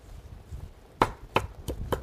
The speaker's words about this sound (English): So this basil plant's been growing for a while, and it really is great. I'm just going to chop a little bit, rough chop here.